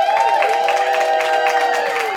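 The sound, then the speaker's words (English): A live audience of women cheers and whoops with a sustained, high-pitched wash of voices that stays at an even loudness throughout. “I have a really beautiful audience here. Let me hear you, girls.”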